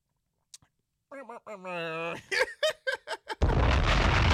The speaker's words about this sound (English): gotta drop a bomb on that